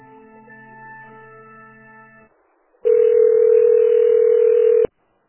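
Telephone tones during a call transfer: a steady multi-pitched hum for about two seconds, a brief silent gap, then a loud, flat single tone that holds for about two seconds before cutting off abruptly.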